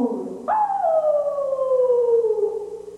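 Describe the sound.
A human voice imitates a wolf howling at the moon in a dramatic verse reading: one long, loud howl that leaps up suddenly, then glides steadily lower in pitch for over two seconds.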